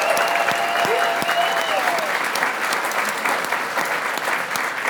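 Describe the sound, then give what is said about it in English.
Audience applause for a singer and her band: dense, continuous clapping from a crowd that holds steady throughout. “how about a hand for Miss Laura Cantrell and all her orchestra?”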